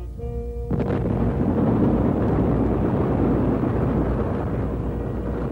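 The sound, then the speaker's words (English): Bombs exploding in war: a deep, heavy roar of blasts that bursts in after a brief tonal opening and then holds as a loud, continuous rumble with no distinct separate impacts. “Bombs. War.”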